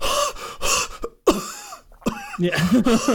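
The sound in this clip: A voice imitates an exhausted cyclist after a race with ragged, breathy gasps and harsh coughs. Several loud bursts come in uneven succession, with a short silent gap near the middle and strained, voiced sounds toward the end.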